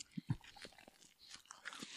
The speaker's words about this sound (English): I'm definitely chewing a condom. It's leaving chunks in places.